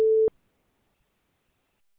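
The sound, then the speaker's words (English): A voicemail system sounds its beep to signal the start of recording. A single steady, mid-pitched electronic tone lasts about a third of a second, then silence follows. “You have reached the voicemail system. Please leave your message after the tone.”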